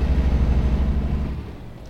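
Low, steady engine drone of a truck in a truck-driving simulation game, a deep rumbling hum that fades slightly toward the end.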